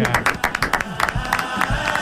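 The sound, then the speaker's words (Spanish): Applause breaks out for the carnival murga group Los Gambusinos, with brisk, irregular claps and some cheering from the crowd, mixed with voices. “el programa de ocio siempre se despide con un aplauso, y hoy el aplauso es para ustedes, para la murga de los Gambusinos.”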